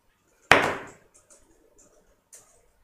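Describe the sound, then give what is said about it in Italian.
One sharp wooden impact as a door is lifted slightly and pushed open, decaying within about half a second, followed by a few faint small knocks and creaks. “Provo a sollevare un po' la porta per fare meno attrito. Ok? E provo a aprirla.”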